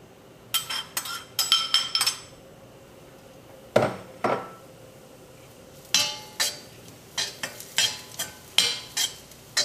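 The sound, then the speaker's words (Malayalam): Grated coconut roasting in coconut oil in a hot pan, stirred with a metal utensil that clinks and scrapes against the pan in irregular bursts, fairly loud, with no talk. “തേങ്ങ നമുക്ക് ഒരു ചെറിയ brown ആവും വരെ വറക്കാം”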